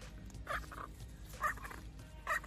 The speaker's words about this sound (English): So these are flamingos. They're little baby flamingos.